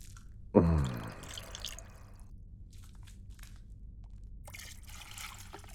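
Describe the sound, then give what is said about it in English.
A brief gurgling burst of liquid while someone is washed with body wash, falling in pitch, then fading into quiet, faint hiss. “The store was out of your body wash, though, so I bought the next best thing. I hope that's okay. Here, let me wash you.”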